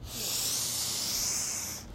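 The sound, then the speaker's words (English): A deep breath in during a guided breathing exercise: one long, airy, steady hiss of inhaled air that holds evenly for nearly two seconds, then fades out. “take another breath and really focus this time on the expiration, on the exhale. So, go ahead and breathe in”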